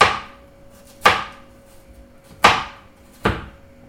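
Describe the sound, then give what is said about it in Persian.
Garlic being finely chopped with a knife on a board: four sharp, loud chops at uneven intervals, each ringing briefly, with quiet between them. “خیلی ریز چون میخواییم فقط طعم بده و زخم مرغ رو بگیره، سیرامون رو خیلی ریز”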